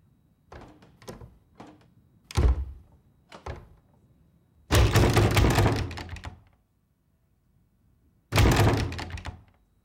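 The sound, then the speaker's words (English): A door is jiggled against its lock as its doorknob turns: several short, sharp knocks and thumps, then two longer, louder bursts of rattling with a pause between them. “The doorknob turns slowly.”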